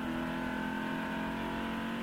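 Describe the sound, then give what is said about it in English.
A Ford GT sports car engine drones during a road test, producing a steady, even hum at constant pitch, fairly faint, with no clear revving. “A special road test for the Ford GT, a car that cost over $100,000 to build.”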